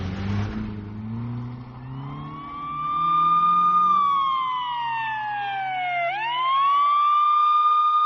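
Police car siren wailing loudly and steadily, its tone sliding down and then sweeping back up, over a low vehicle engine rumble at the start.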